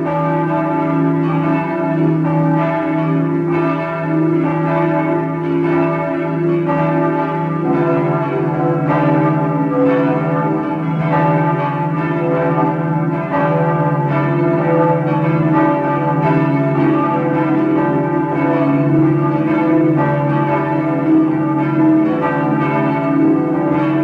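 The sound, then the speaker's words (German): Parish church bells in Vienna's fourth district peal at noon, a loud, steady, continuous wash of overlapping bell tones that keeps going without a break and with no voices. “Es ist 12 Uhr. Sie hören die Glocken der Pfarrkirche St. Karl Borromäus im 4. Wiener Gemeindebezirk.”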